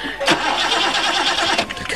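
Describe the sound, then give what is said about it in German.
A car engine cranks but fails to start, giving a loud, rough, continuous churning for about two seconds. “Sie sehen es doch, der Motor springt nicht an.”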